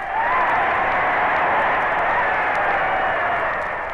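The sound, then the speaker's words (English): Crowd noise at a heavyweight championship boxing match in a stadium, a dense, continuous wash of cheering voices holding at a loud, steady level throughout. “The sounds you just heard were the sounds of the prize ring.”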